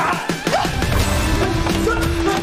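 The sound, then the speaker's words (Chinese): Men smashing up a street stall: a loud, dense clatter of crashing and banging blows that keeps going without a break. “兄弟们，把他摊儿给我砸了！砸！砸！砸！砸！”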